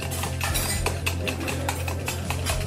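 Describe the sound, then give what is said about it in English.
A metal whisk scrapes and clinks rapidly against a bowl while mixing a maple syrup and tapioca flour filling, producing many quick, bright ticks over a steady low hum. “we're gonna whisk this deliciousness into this bowl here, and that will be our filling.”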